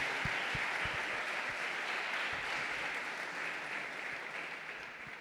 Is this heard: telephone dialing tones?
no

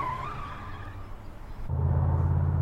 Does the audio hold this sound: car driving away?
yes

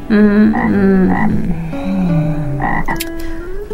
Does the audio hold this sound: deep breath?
no

